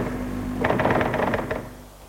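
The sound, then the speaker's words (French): Typing on a typewriter as a statement is taken down: many quick, faint key strikes in a brisk run over a steady low hum, then tapering off. “Le commissaire a tout noté sur la machine à écrire.”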